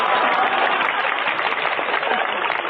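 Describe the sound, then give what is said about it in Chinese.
A live audience applauds at a stage comedy performance with steady, dense clapping that continues evenly throughout and sounds somewhat muffled in the treble. “现场朋友来点掌声送他吧。”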